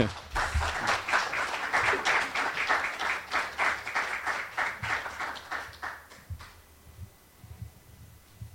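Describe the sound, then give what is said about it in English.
Audience applause welcoming a speaker at a lecture in Baltimore: dense, steady clapping from many hands that holds even for several seconds, then thins and fades toward the end. “Please give Ted a very warm Baltimore welcome.”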